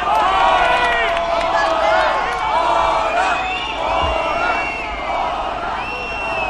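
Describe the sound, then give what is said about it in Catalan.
A crowd on Passeig de Gràcia in Barcelona greets King Felipe VI with a loud, sustained roar of cheering and shouting voices that carries on without a break from start to end. “Si s'està retransmetent per una televisió aquí a la ràdio, ho esteu sentint. Aquesta és la rebuda que té Felip VI de Borbó aquí al Passeig de Gràcia.”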